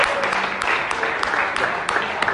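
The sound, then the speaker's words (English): An audience cheers and applauds at a community gathering, a dense, fairly loud wash of clapping and crowd noise that runs steadily throughout. “You're cheering too half-heartedly.”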